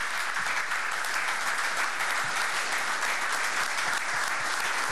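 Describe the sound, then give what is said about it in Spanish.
Applause from a crowd at the inauguration ceremony of a military medical university: dense, steady clapping that stays loud and even for the whole clip. “compañero Ernesto Villegas, para ustedes un aplauso de apoyo, de impulso y de amor”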